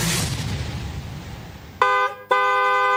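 Car horn honking in two blasts, a short one followed by a longer steady one, both loud and brassy, cutting in after a stretch of low traffic rumble.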